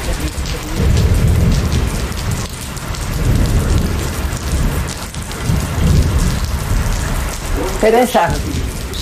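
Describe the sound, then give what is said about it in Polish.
A thunderstorm with rain: a continuous loud hiss of heavy rainfall, with low rumbles of thunder rolling through it. “burza idzie szybciej.”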